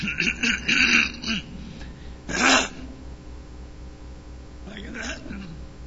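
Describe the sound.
Throat clearing during a church service: a few raspy bursts at the start, a louder harsh one in the middle, then a fainter one near the end.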